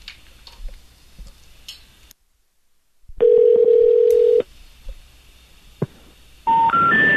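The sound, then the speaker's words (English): Ringback tone of an outgoing telephone call: one long, steady, buzzing tone, then after a pause a sequence of three short rising tones. “Oh, it's ringing.”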